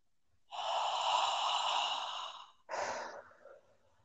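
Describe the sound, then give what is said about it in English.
A deep, slow breath drawn in during a guided relaxation exercise, sustained for about two seconds, then followed by a shorter second breath. It is fairly loud and alone, with no talk. “Breathe that in. Breathe that in so deep.”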